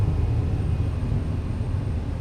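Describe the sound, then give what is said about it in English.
A light aircraft's engine drones steadily as it slows while approaching to land, a low, even rumble that holds at a constant level throughout, with no voices. “We're just 1 mile to the north of Luss, slowing the aircraft down now.”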